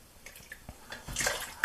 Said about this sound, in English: So I've got the milk open, and we're going to pour